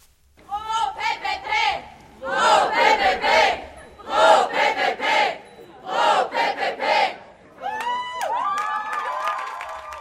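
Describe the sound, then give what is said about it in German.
Crowd of secondary-school students chanting in loud rhythmic bursts while demonstrating outside the education department against a change to a subject at their Gymnasium am Münsterplatz; the shouted chant rises and breaks off several times, with many voices together. “Das hört man an den Tönen von einer Demonstration.”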